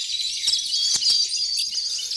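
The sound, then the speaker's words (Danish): Birds chirp and tweet in a dense, steady high chatter as two white doves and other birds fly in through a window to peck up lentils. A few soft fluttering bursts sit under the continuous calls. “Først var der 2 hvide duer, der fløj ind af vinduet, men snart var der alle slags fugle, der kom for at hjælpe med at samle linserne op.”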